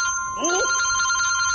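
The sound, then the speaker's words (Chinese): A telephone rings with an incoming call, a steady electronic tone held throughout, with a brief voice-like sound near the start. “来电话了。 我爹来电话了。”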